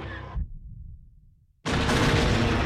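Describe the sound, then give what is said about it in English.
An oblong segmented bomb dropped from Boba Fett's starship implodes in a blue blast and then bursts outward in a ring of energy. A fading low rumble drops almost to silence before a sudden, very loud, sustained roaring blast. “A hatch opens at the rear of the ship, and an oblong segmented bomb drops out, which implodes in a blue blast.”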